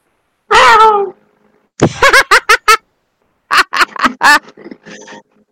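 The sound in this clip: A human voice imitating a cat: one drawn-out whiny meow, then two bursts of short, choppy meows and chirps, loud and close, with no other talk.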